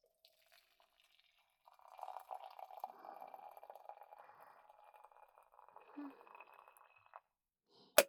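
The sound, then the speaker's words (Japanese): Hot water is poured for tea in a soft, steady trickle. It begins after a brief quiet, runs for several seconds with a faint ringing tone, then stops, and a single sharp click follows at the end. “では、お湯を入れていきます。”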